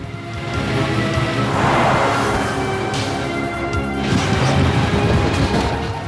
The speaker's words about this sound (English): Trees and buildings are being demolished as the colossal force of the flood crashes through the town. Several buildings are just swept away like matchsticks